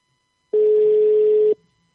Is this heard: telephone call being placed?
yes